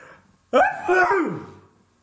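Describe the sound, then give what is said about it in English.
An enormous single sneeze bursts in after near silence: a loud, voiced blast that swells, holds briefly, then trails off, sinking in pitch as it fades. “an enormous sneeze, groundbreaking sneeze.”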